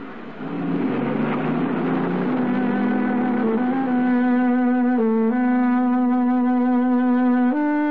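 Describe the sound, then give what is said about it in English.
A taxi drives in city traffic, its engine droning loudly and steadily, the tone climbing in steps as it pulls along, with a brief dip before settling back to a sustained hum. “Surrounded by traffic, Lou Marino's taxi looks no different from any other.”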